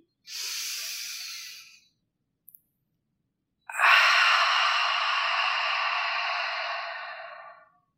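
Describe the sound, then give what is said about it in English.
Deep breathing during a guided breathing exercise: a breath of about a second and a half, then a pause and a much longer airy breath lasting around four seconds, both soft and hissing with no speech. “So, let's exhale first to let out any stale air. Go ahead, breathe in.”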